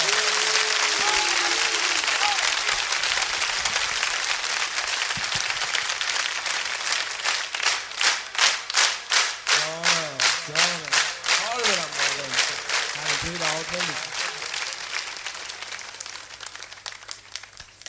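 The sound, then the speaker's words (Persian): A crowd claps along in a steady rhythm to a voice chanting a devotional song in Persian. Scattered applause settles into a loud, regular beat, then slowly fades. “های دست بزن ماشاءالله.”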